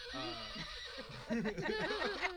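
A horse neighs in a quavering, warbling whinny. A softer opening gives way to a stronger, rising-and-falling burst after about a second.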